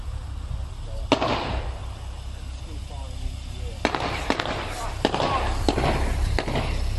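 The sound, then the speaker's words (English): Gunfire at a dockside in Chatham, Kent: several sharp, sudden bangs, around six, are spaced irregularly over a steady rumbling background noise. “But this is in Chatham, dockside shooting.”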